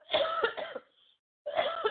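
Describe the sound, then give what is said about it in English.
Harsh, throaty coughing comes in two loud bouts split by a short silent pause, each bout made of a few rough bursts. “Stop coughing. Boy, oh boy. Trying to stop coughing.”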